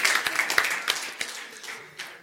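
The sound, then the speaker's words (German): An audience applauds a participant after a joke, but only a few scattered, separate claps ring out, uneven in rhythm and fading toward the end. “Also Applaus hier einmal für unseren Max.”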